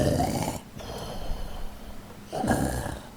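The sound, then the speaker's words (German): Loud snoring of a sleeping stegosaurus tethered outside a large trading house, two deep, rasping, rumbling snores separated by a quieter breathy pause. “ein Stegosaurus zu schlafen, der da angebunden ist. Und der laut schnarchende”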